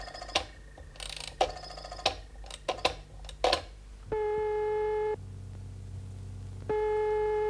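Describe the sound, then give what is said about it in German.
A telephone being dialled: a few sharp clicks at an uneven rhythm, then steady electronic line tones that hold, drop to a lower pitch, and return higher, with no voices. “Kann ich bei Ihnen telefonieren?”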